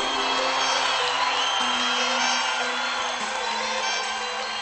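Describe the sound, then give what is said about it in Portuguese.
A crowd of fans at a live show cheers and shouts, a loud, dense and continuous roar of voices that holds steady throughout. “Quero ver o grito dos apaixonados aí!”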